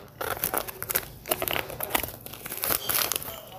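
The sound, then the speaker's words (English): Cardboard packaging is unhooked and pulled away from a toy during unboxing. Many crinkling, rustling and tearing sounds come in an irregular, fairly loud stream, with no speech. “And yeah, let's be careful about this as I open it to unhook the cardboard from the contents.”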